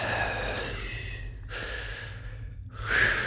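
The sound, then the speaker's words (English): Deep breaths drawn in and let out, heard as a couple of airy, hissing bursts over a low, steady hum. “Look, take deep breaths. There you go. Take a deep breath. Let it all out.”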